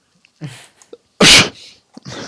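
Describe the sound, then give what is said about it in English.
A single loud, sharp sneeze bursts out abruptly among quieter breathing and small sounds. “Was that sneeze? It was, yeah.”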